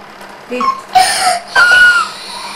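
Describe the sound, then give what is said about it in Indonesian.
Child crying in three short sobbing bursts, each a wavering wail that rises and breaks, loud against faint background noise. “Tidak boleh nangis, nangis ntar gak diajak pergi.”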